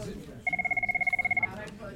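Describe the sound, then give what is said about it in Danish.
A telephone rings with an incoming call: one rapid, trilling burst of about a second made of many quick electronic pulses, with faint talk around it. “Vi bliver afbrudt af et opkald, som Anne-Marie naturligvis straks retter al sin opmærksomhed på.”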